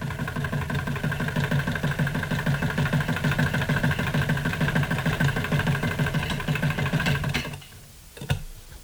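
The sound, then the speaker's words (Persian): A sewing machine runs with a steady, rapid mechanical whir and a fast rhythmic chatter, then stops near the end, followed by a single sharp clack. “صدای چرخ خیاطی بود.”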